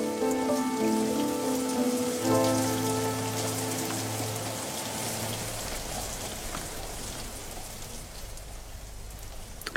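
Rain falls on a surface in a steady, even hiss throughout. Sustained musical tones sound beneath it during the first half, then fade away, leaving only the rain.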